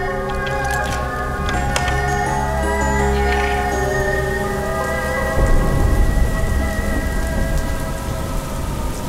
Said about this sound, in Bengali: বেশ বৃষ্টি দেখছিল দুজনে